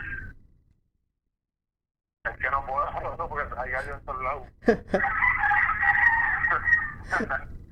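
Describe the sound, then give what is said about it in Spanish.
Roosters crowing with voices: a sustained, harmonic crow rings out in the second half alongside talk, after a brief call at the start and a short silence. “lo único que escucho son tus gallos. Si te puedes mover. Es que se escuchan mucho los gallos.”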